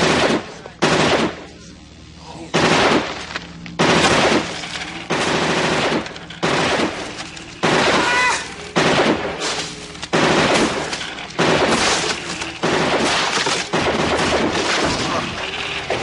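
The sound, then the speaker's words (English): Machine gun fire crackles in many loud, rapid bursts, each cut off by a brief pause, repeating over about sixteen seconds. “all of a sudden they hear that gun, that friggin' RoboCop gun that... gun.”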